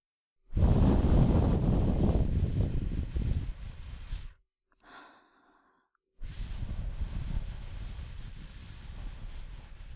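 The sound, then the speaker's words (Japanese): Breath is blown to clear away fine debris in two long, loud, breathy puffs separated by a short pause. “細かいカスを吹き飛ばすために息を吹きかけているんですけど”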